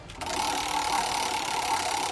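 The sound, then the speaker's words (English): A prize wheel is spun, giving a rapid, continuous whirring clatter that starts abruptly and holds at a steady, fairly loud level without slowing. “spin that wheel”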